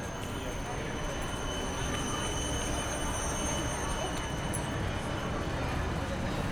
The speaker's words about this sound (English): Ik rij nu langs langzaam rijdende trams.